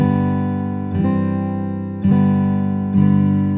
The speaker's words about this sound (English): it's much more realistic because a guitar has a natural decay when you strike one of the strings.